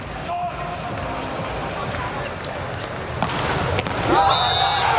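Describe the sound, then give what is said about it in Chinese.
Volleyball serve struck for a direct ace during a tight match, heard as a couple of sharp ball impacts over a constant roar of crowd noise, with the crowd swelling louder near the end. “Ace， 好球，这发球直接得分了”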